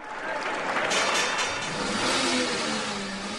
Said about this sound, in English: That's the roar of an engine of a new Chevy Camaro